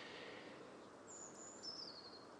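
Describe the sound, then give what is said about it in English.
Faint bird song outdoors: a couple of thin, high, drawn-out whistled notes rise over a soft, steady background hiss. “My attention is drawn to the bird that's singing, but as I look up to see where it is, I spot two camouflaged turtle doves sitting 2 feet apart, obviously a pair,”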